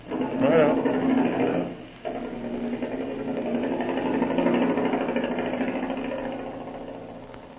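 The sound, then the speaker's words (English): A motor starting and then running: a loud rattling burst cuts out briefly, then settles into a steady mechanical chugging hum that slowly fades, with a voice near the start. “All right, start that motor, Marshal.”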